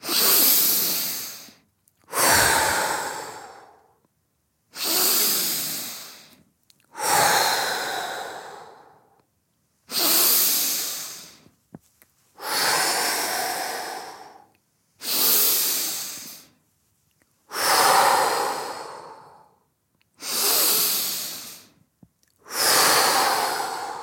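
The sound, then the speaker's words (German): Forceful breathing in through the nose and out through the mouth during a breathing exercise: ten loud, airy breath bursts in a steady rhythm, each separated by a short silence, with no talk. “kräftig durch die Nase ein und durch den Mund aus und dabei hebt sich dein Brustkorb beim Einatmen dramatisch Richtung Sonne und beim Ausatmen geht er wieder kraftvoll zurück. Ich mache jetzt mal mit.”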